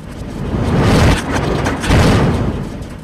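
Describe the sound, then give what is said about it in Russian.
Heavy double door leaves in a fortress slamming shut with a dull thud, heard as two low, booming swells of rumbling noise about a second apart. “Затем тяжелые створки с глухим ударом сомкнулись.”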